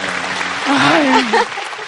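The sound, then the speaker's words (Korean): Audience applause on a talk show: a short burst of steady clapping heard under a speaking voice. “우리 다 같이 한번 박수 한번 쳐드리고요.”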